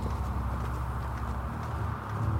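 Horse hooves of an approaching rider make a dense, continuous clatter over a low rumble, fairly quiet throughout and growing slightly louder toward the end.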